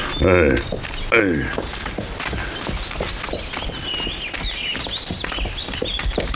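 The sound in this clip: Hooves clip-clop steadily as a horse is led up a mountain path, with chirping birdsong above the footfalls.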